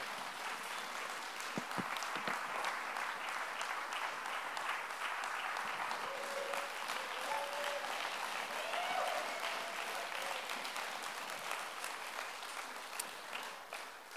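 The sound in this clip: Audience applause welcoming a speaker who comes up to share a story of faith: a dense, steady wash of many hands clapping that holds for about fourteen seconds and thins slightly at the very end.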